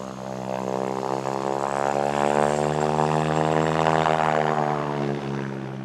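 Propeller aircraft engine droning steadily, a loud, dense harmonic hum that holds level throughout, swelling slightly through the middle and easing a little near the end.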